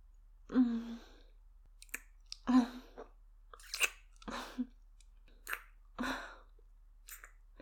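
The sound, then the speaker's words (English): Wet licking and mouth sounds as someone licks a spilled drink off a cup. A series of soft, separate smacks and slurps come one after another, a few carrying a brief low hummed voice. “Oops, I dropped a little. Let me just lick it off and clean your cup.”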